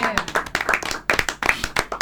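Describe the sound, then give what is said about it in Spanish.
Applause from an audience welcoming someone at a league gathering: dense, irregular clapping with bright, sharp hand strikes. It carries steadily for the whole stretch at moderate loudness, with voices mixed in. “A él, nuestro emocionado aplauso.”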